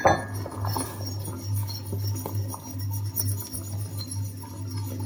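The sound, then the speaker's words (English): A fork whisks thickening stock in a pan, making many quick, light metallic clinks and scrapes against the pan, fairly soft and with no talking. “I cannot find my whisk, so I'm using a fork. And see how quickly that thickens.”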